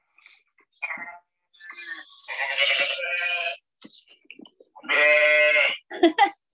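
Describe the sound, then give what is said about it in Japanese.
Sheep bleat inside a sheep shed: a scattered run of short and longer calls at moderate loudness, with two sustained bleats standing out among brief quiet gaps. “あの羊小屋で撮った音がさっき撮ってきました。”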